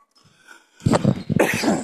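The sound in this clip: A short fit of a few harsh, loud coughs from a tickle in the throat, heard alone after a brief quiet moment during halftime commentary of a game on a cold winter evening.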